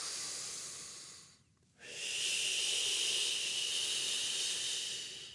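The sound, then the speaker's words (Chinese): Deep breathing from a person demonstrating a breathing technique timed to stride rhythm: a long airy breath fades into a short pause, then a longer, louder breath hisses steadily to the end. “咁咧呢個就好深呼吸嘅，你唔需要咁多嘅其實。”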